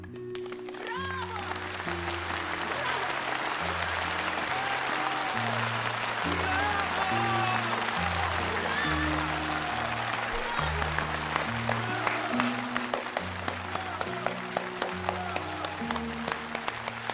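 Audience applause in theatre stalls after a stage performance: dense, even clapping that holds at a steady level throughout and grows slightly more crisp and scattered toward the end.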